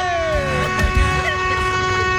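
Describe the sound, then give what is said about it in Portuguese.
Truck horns honking in sustained, steady blaring tones that last through the whole stretch, layered over a low engine rumble. “Os cornos tá tudo buzinando pra dizer que tá chegando.”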